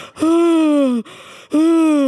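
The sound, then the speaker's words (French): Yawning from a person: two drawn-out voiced yawns, each starting loud and sliding gradually lower in pitch, with a short breathy gap between them. “Ça m'a fait bailler.”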